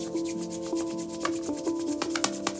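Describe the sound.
Hands are rubbed firmly together during a guided meditation, a brisk, rhythmic rasping of skin on skin over a soft, sustained tonal background.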